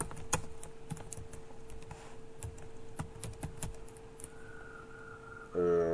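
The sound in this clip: Typing on a computer keyboard: many quick, light key clicks at an even pace over a faint steady hum.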